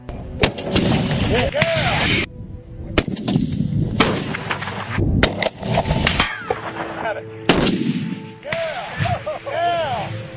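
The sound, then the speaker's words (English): A .50 caliber Barrett rifle made in Tennessee fires several heavy, booming shots at irregular intervals, each a sharp loud crack over a continuous, busy background. “This is a 50 caliber Barrett rifle produced in Tennessee in the United States of America. And it's formidable.”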